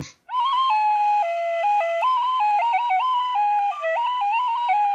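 A recorder plays a wavering, stepped run of high, piercing notes meant to imitate falling rocks. It sounds as one continuous, loud line that jumps up and down in pitch without pause.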